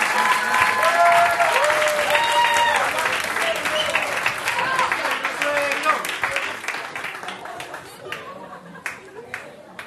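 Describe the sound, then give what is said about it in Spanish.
A church audience applauds a visiting preacher. The clapping begins as a dense, loud wash and gradually thins and fades over about ten seconds, with voices audible through it. “así que démosle un aplauso fuerte.”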